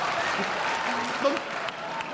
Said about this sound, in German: Da klatscht der Westfale, das war mir klar.